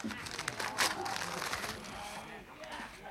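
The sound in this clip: Soft crinkling and rustling of a paper letter being unfolded, faint and irregular, spread over a few seconds.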